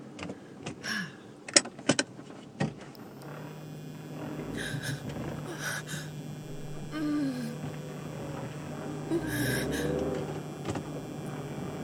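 A car being driven gives off a low, steady engine and road hum throughout, with a few sharp clicks and rattles near the start.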